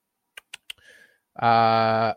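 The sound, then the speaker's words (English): Three quick, sharp clicks of a computer mouse, evenly spaced, are followed after a short pause by a loud, steady, buzzy tone that holds for under a second. “Let me click back to Sunday here and click on Rotodoc.”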